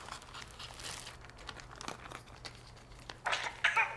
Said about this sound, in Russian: Разрезает пакет с рыбой.